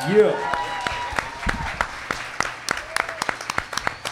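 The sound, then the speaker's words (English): Audience applause welcomes a guest onto a stage, with steady clapping throughout and a host speaking over it. “Keep it going. Yeah. She only hears what she wants to, and what she wants to hear is a nice applause.”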